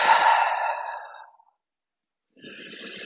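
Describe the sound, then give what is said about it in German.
A forceful exhale through the mouth: one long, breathy rush of air, strongest at the start and fading away over about a second and a half, followed by silence. “ganz bewusst atme einmal durch den Mund ganz kräftig”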